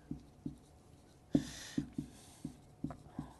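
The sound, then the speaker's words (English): Handwriting on an angle: a pen moves across paper in about eight short scratchy strokes. They come at an uneven pace, and one stroke in the middle is louder and longer. “Okay. Writing on an angle.”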